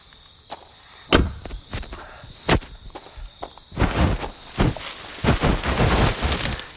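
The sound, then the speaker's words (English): Footsteps head into high grass on a foggy night. A few separate thudding steps come first, then denser rustling swishes as the walker pushes into the vegetation. “I'm walking into... It's not quite forest. It's more like high grass.”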